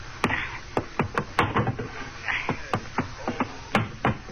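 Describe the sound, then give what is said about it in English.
Many sharp knocks and clunks from a cabin hatch being opened on a boat, coming in an uneven series of distinct hits. “open the hatch to the cabin”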